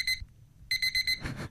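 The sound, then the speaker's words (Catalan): An alarm clock gives a short burst of high electronic beeping, then four quick beeps, and ends with a dull thud as it is stopped. “L'alarma de l'Olga, sots directora del programa, sona així.”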